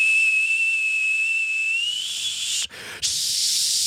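A whistling teapot left too long on the stove gives a shrill, steady high whistle over a bed of steam hiss, the pitch edging up near the end before a brief dropout and a loud rush of hiss.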